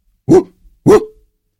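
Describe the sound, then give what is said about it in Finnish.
A person imitates a barking dog with two short, loud, voiced woofs about half a second apart. Each ends in a brief tonal tail, and quiet gaps surround them. “Sitä paitsi, ja se oli merkillistä, Korppi osasi matkia koiraa. Näin.”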